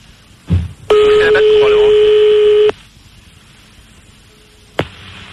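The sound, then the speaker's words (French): Fax machine tone on a phone line: a single steady electronic tone, loud and flat for about two seconds, with a sharp click a couple of seconds after it stops. “Allô? Ah. Il a un fax? Il a mis le fax, les salauds.”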